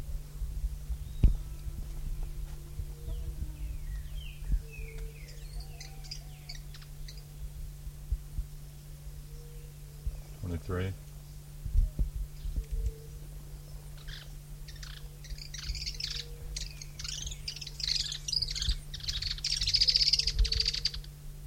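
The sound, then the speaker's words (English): Several birds calling, scattered short chirps and tweets that grow busier and louder toward the end, over a steady low hum that runs throughout. “three birds present”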